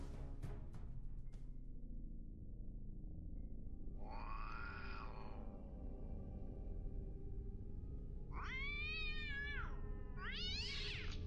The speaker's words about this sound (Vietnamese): Tiếng mèo vườn chuột đâu đó vang lên.